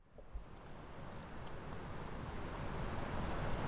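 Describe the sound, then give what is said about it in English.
Water roars as a large flow is released through a drainage sluice on a channel running from the Somerset Levels to the Severn Estuary. The rushing noise is steady and broad, swelling slightly over time, with no voices. “That roaring sound you can hear is a great river of water being released through a sluice, a great drainage channel that runs out of the Somerset Levels to the Severn Estuary.”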